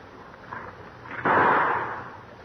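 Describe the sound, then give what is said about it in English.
A single loud gunshot from a cocked gun cracks suddenly after a quiet stretch, then fades into a long rumbling tail. “Oh, I shot way over it. The barrel kicked up. I'm going to shoot again.”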